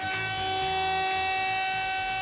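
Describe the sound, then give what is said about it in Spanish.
A siren sound effect: a steady, sustained tone that holds one pitch for the whole clip, with a faint throbbing rumble underneath. “pero quita esa sirena, es horrible”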